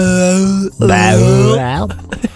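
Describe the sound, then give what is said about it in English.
A groan tube toy's noise: a loud, sustained, wavering moan whose pitch glides up and down, interrupted by a short gap near the start. “One of them is just a noise as well. Oh my god! Yes, one of those groan tubes.”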